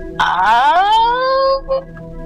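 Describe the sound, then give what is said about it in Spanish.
A woman's voice imitates an ugly howl with a single drawn-out tonal wail that rises in pitch, holds, and then fades into a short, weak tail. “se escuchó un aullido como muy feo, así, se oía, lo voy a imitar pero no soy tan buena”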